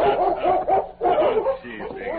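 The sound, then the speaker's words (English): A large German shepherd barks a welcome at a ranch while circling a horse: a few loud, sharp barks in quick succession, with brief gaps between them. “the Colonel's dog, a large German shepherd named Chief, circled Scout, barking a welcome.”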